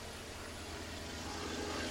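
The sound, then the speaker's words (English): A Grumman Avenger propeller aircraft flying past, a faint, steady engine drone that grows slightly louder, with no talk. “Here comes the Grumman Avenger.”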